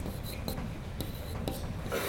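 A pen scratches across paper in a few short, quick strokes, faint, dry scraping taps separated by brief pauses, with a slightly longer scribble near the end.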